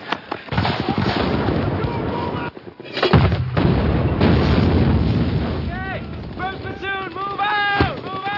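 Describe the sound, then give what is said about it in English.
Mortar and grenade-launcher fire pounds a building in several heavy, booming blasts and bursts of gunfire, with shouting voices rising over the barrage toward the end. “All right, I want mortars and grenade launchers on that building till it's gone.”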